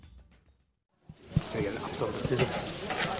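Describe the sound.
Sausages sizzling as volunteers cook them at an election-day barbecue. A steady crackling hiss with scattered sharp pops starts suddenly about a second in, after a near-silent opening, and carries on loud to the end.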